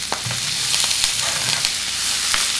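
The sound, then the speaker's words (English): Vegetables sizzle in hot oil in a pan while cooking for a cassoulet. The frying makes a loud, steady, hissing crackle that lasts the whole clip, with a few faint ticks and clicks on top and no talking. “that's what I was trying to get, that sizzling sound. So at home, when you hear that sound, you know that you're on the right track.”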